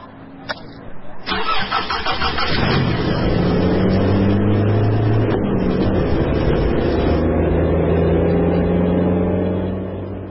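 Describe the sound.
A car engine starts: a couple of clicks, then a short cranking chatter before it catches. The engine runs up into a steady, loud hum and keeps running as the car gets ready to drive off.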